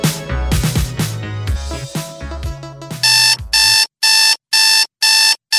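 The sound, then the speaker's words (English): An alarm clock rings as a wake-up call, sounding five loud, rapid bursts of bright metallic ringing after a stretch of music with beats. “Do you know what that sound is? That's your wake-up call.”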